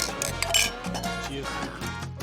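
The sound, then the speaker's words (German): Glasses clink in a toast before a Europa League final in southern Spain. A few light, bright clinks rise over a steady bed of clatter, fairly quiet throughout. “So, können wir anstoßen?”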